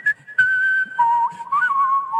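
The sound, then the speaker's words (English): Human whistling by a four-time champion whistler, a bright, clear melody that shifts between held notes and rapid warbling trills, moving up and down in pitch, loud and alone with no talk. “four-time whistling champion and member of the Whistling Hall of Fame”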